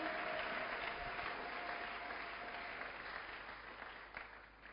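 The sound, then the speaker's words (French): Applause from a church audience during a morning worship service: a dense, steady wash of clapping that holds for several seconds and slowly thins toward the end. “Est-ce qu'on peut acclamer Jésus? Alléluia!”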